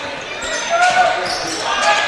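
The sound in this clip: A basketball dribbled on the court during a game, its quick repeated bounces sitting under steady, busy background noise of the gym.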